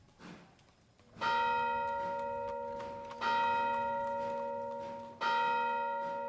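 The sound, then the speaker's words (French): A nearby chapel carillon chimes midnight on a misty night. Three resonant bell strokes fall about two seconds apart, each ringing out rich and bright before fading slowly, with faint low noise before the first stroke. “Minuit sonna au carillon embrumé d'une chapelle proche.”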